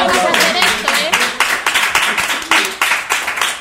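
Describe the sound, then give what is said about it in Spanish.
Clapping from an audience celebrating a 200th program, sounding as a series of sharp, loud claps in an uneven rhythm under excited voices that talk and shout. “¡Un aplauso, un aplauso!”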